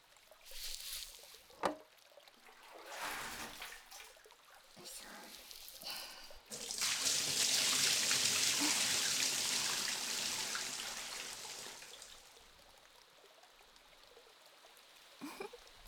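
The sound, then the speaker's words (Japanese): Hot water runs over someone being rinsed off in a shower, a loud, steady rush that swells in midway, holds for several seconds, then eases off. Quieter, irregular handling sounds come before it. “そのまま立ってて。せめてお湯で洗い流そう。”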